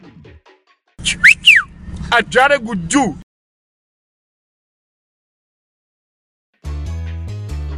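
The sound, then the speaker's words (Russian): Whistling, a few sharp, high, sliding notes that rise and fall over a couple of seconds, mixed in with a voice. Music follows after a pause. “свистни!”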